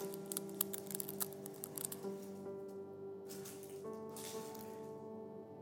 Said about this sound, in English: If you'll peel that top part off, if you haven't already.